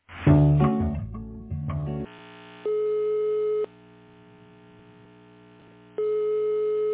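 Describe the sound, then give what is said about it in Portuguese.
Ringing tone as a building concierge intercom calls a resident about a delivery: after a short burst of louder mixed sound, two steady one-second tones sound, separated by a long pause with only a faint hum. “Aguarde um momento que vou ligar para o morador.”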